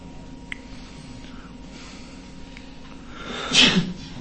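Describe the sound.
A single short, sharp sneeze bursts out near the end, standing alone above a low, steady background after a mostly quiet stretch.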